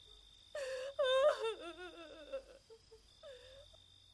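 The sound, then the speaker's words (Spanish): A woman crying inconsolably: gasping sobs and wavering, wailing moans come in a few uneven bursts, with quiet gaps between them and a shorter whimper near the end. “Ella solo llora desconsoladamente y su hermana la abraza.”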